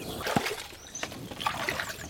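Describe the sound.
Water splashes and sloshes as someone in rubber boots climbs into a small moor basin. A few irregular splashes and trickles at moderate level, with no talk.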